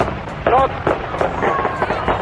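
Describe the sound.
Firecrackers exploding on a morning, with a few sharp, crackling bursts popping out over a busy bed of voices and background noise.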